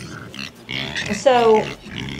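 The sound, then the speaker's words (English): Pigs grunt on a farm with a few short, nasal grunts and a longer, louder oinking call in the middle. “These pigs have to be moved out of this area. So yeah, and all we're missing is a new strand of hot wire around the bottom of the fence.”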